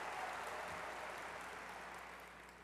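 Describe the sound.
Faint audience applause welcoming a speaker after a generous introduction, a steady wash of many hands clapping that slowly tapers off toward the end.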